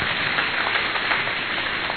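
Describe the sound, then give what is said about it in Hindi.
An audience claps together in a dense, even wash of many hands, steady and loud from start to finish. “तो एक बार तनुजा बहन के लिए हम लोग ताली बजाएंगे।”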